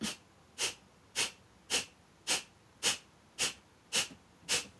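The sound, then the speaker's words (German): Nine forceful, evenly spaced exhalation bursts of Kapalabhati yoga breathing, each a short, sharp hiss at a quick, steady rhythm with quiet gaps between. “Bei Kapalapati haben wir den Fokus auf die Ausatmung. Das heißt, wir probieren es nochmal, tief einatmen und dann stoßweise”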